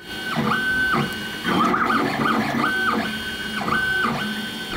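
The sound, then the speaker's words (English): A 3D printer runs, its stepper motors whining in tonal passes that shift pitch and repeat, over a steady mechanical hum and light clicking, with no voices. “Do you know what that is? That's the sound of the machine that's going to destroy manufacturing as we know it. Next on our list of breakthroughs is the 3D printer.”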